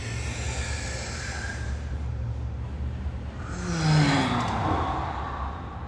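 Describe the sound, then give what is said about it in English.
One deep breath drawn in: a soft airy rush swells in the second half, peaks briefly, then eases off over a steady low background hum. “So let's all take a deep breath. So breathe in.”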